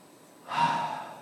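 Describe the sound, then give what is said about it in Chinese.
One deep breath drawn in: a soft, breathy rush of air that swells quickly and then slowly eases off, heard alone with no talk. “让我们在说不可能之前，我们先深呼吸一下”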